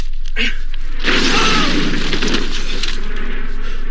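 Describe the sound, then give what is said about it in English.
A film sound effect of a .50 cal bullet hitting a man: a sudden loud crashing burst with glassy, shattering noise that roars on for a few seconds, after a couple of short earlier bursts. “And that's the sound of a 50 cal bullet hitting this guy. It blows this dude away.”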